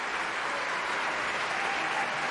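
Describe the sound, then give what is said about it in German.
A theatre audience applauds the cast at an opera curtain call with dense, steady clapping that holds at an even, loud level throughout, with no breaks. “Und wird hier sehr beklatscht natürlich.”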